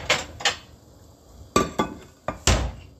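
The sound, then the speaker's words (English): Sharp clanks and scrapes of a utensil against a frying pan as sticky fried corned beef is scraped onto a plate. Several distinct knocks come in uneven bursts, loud against a quiet background. “All right, so the corned beef is sticking to the pot, whatever like that, or the pan, and I'm just gonna put it in my plate right now.”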